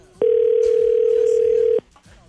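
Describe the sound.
A telephone ringing on the line of a call to a radio station, heard as one steady, loud, low-pitched tone lasting about a second and a half that starts and stops abruptly.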